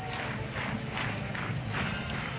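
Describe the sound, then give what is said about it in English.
Massive softball crowd at Bowlin Stadium after Nebraska's 2-0 regional win over Grand Canyon, a muffled, fairly faint roar that swells and eases in gentle pulses. “And this massive crowd at Boland Stadium will head home happy.”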